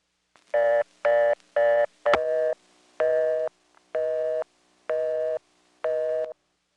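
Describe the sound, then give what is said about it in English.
Telephone trunk tones from a recorded call timing out after a flash: eight steady, buzzy tone bursts. The first three come in quick succession, and a sharp click marks the fourth, after which the bursts repeat at a slower, even cadence. “The best thing to do is to flash after the trunk flashes, but before anything is sent. Now, here's what it sounded like on that previous call when it timed out.”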